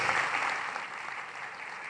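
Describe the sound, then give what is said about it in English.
An audience at a pastors' church conference claps, a dense, even wash of applause that stays steady and fairly loud throughout with no talk over it. “Clap for yourselves, clap for Jesus.”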